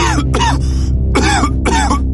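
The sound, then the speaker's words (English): Loud, harsh coughs from one person, heard as two close pairs of bursts with short silent gaps between them. “It started with a single cough.”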